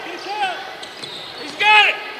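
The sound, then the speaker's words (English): A basketball is dribbled left-handed on the court during a game, a few dull bounces sounding under a commentator's continuous talk. “Right in front of me with that left handed dribble.”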